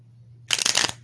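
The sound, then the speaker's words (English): A deck of cards being shuffled, one quick burst of rapid, crisp fluttering lasting under half a second over a low steady hum. “So, let's see. I'm gonna shuffle right here for a little bit and then we'll get into it.”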